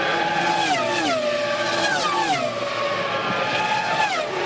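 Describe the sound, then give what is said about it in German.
High-pitched engine scream of Formula 1 race cars, loud and continuous, with several sweeping pitch drops as the cars rush past one after another. “so klingen sie, die Rennboliden der Formel 1 mit den berühmten Rennstellen von Ferrari über Mercedes und natürlich auch McLaren.”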